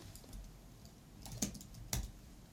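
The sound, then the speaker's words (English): Faint typing of a password on a computer keyboard: a few soft key taps, then two sharper clicks about half a second apart, heard alone. “The computer beeps and the text you type disappears.”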